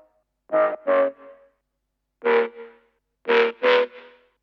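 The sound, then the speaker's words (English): A synthesized mid bass sound plays on its own as five short, gritty, distorted notes: a pair, then a single note, then another pair, with silence between the groups. “basically this is the sort of mid bass on its own.”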